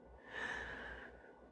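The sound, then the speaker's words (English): One deep breath drawn through the airways: a soft, airy rush that swells shortly after the start, holds for most of a second, then tapers away, faint and alone with no talk. “Let's all stop and take a deep breath. You ready? Take a deep breath in”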